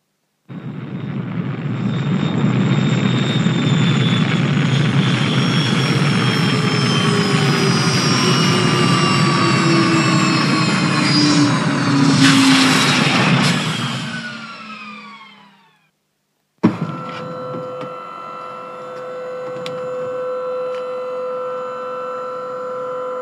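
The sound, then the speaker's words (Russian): Loud roaring drone of an approaching spacecraft coming in to land on a landing pad, with jet-like tones that slide steadily downward for about fifteen seconds before fading out. After a short silence, a steadier, lower hum with sustained tones follows. “Как только он это сказал, в небе послышался гул приближающегося Дескава.”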